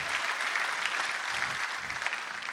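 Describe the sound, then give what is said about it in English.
Audience applause at Life Center church, welcoming a pastor to the stage: dense, steady clapping from a large crowd, loud and sustained throughout with no pause. “Life Center, would you put your hands together? Would you help me welcome my good friend, Pastor Kyle Veach?”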